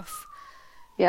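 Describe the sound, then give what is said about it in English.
A police car siren sounds as one steady wailing tone that drifts slowly downward for about a second, with people talking around it. “Is that the police? Yeah. Whoop, whoop, whoop. It's the sound of the police.”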